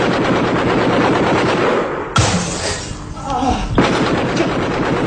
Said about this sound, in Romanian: Am împușcat. Au început atacurile, ești rănit